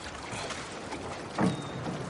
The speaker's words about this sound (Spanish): No te caigas. Vete. Empuja la barca.